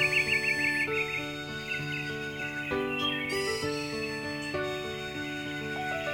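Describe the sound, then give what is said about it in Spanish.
Birds chirping and singing at dawn, with quick twittering calls most evident early on, heard over sustained, shifting musical tones throughout. “¡Ya amaneció! ¡Escuchen los pajaritos cómo cantan!”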